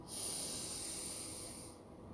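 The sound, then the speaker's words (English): A single deep breath drawn in, a soft, airy hiss lasting just over a second before tapering off, faint and alone. “deep breath”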